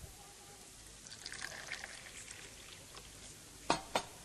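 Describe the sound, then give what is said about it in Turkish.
Tea pours faintly into a glass in a soft, brief trickle, followed by two short, sharp clinks near the end. “Baba, bana da çay döker misin? Tabii evladım.”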